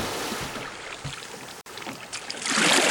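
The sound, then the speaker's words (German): Oars rowing a boat on water as the crew heads back toward the coast of Britain, with a steady wash of water and a few splashing strokes that swell louder near the end. “Während unsere Freunde wieder der Küste Britanniens entgegenrudern”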